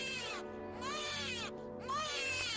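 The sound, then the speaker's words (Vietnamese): A newborn baby crying in the night: continuous shrill wails, each rising then falling in pitch, repeating in a steady pattern at a constant loudness. “Bất chợt, xen kẽ giữa tiếng róc rách nước chảy vào cốc nhựa là tiếng trẻ con sơ sinh vảng vất đâu đây. Nó cứ lanh lảnh trong đêm tối.”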